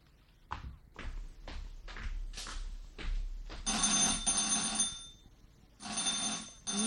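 Several soft thumps come first, then a telephone bell in a house rings loudly in two sustained bursts with a short gap between them.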